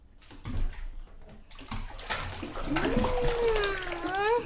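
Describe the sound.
Water sloshes and splashes in a bathtub as someone lowers into hot bath water. The splashing is steady throughout, and a voiced sound carries over the second half.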